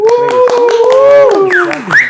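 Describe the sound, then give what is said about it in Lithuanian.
A few people clap for a defended doctoral dissertation, with quick sharp claps in an uneven rhythm under loud, whooping voices that rise and fall in pitch. “Tai Laurynas apsigynė daktaro disertaciją, plojimai ir...”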